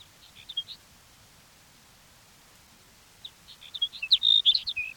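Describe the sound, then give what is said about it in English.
Sage sparrow song: thin, high chirping notes, faint against a quiet background. A short cluster of notes opens, a pause follows, then a longer, livelier run of twittering notes closes. “Here's sage sparrow number one.”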